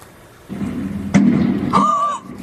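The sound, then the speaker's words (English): A gunshot in video of a police shootout in Montreal: one loud, sharp bang breaks through a steady, noisy background. A brief higher, tonal sound follows soon after. “Guys, what the f***? He's just shooting the cops.”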